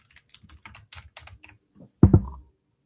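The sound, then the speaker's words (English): Typing on a computer keyboard: a quick, uneven run of many light key clicks, ending in a louder, heavier key press. “And we're going to type in prayer.”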